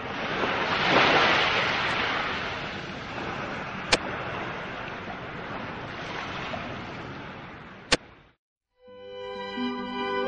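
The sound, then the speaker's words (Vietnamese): A giant ocean wave crashes over and swallows a royal dragon boat, a loud sustained roar of surging water and wind with two sharp clicks. It cuts to a brief silence, then steady tonal sounds. “Bỗng từ đâu có một ngọn sóng khổng lồ tràn lên, nuốt chửng thuyền rồng.”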